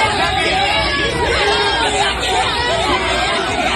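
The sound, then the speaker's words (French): A crowd of about 200 local fans cheers PSG players arriving at their hotel in Tokyo, with a loud, continuous mass of excited voices, chatter and shouts blending into a dense roar throughout. “Et dès l'arrivée à leur hôtel, les joueurs sont acclamés par 200 supporters locaux. Accueil triomphal en particulier pour Kylian Mbappé.”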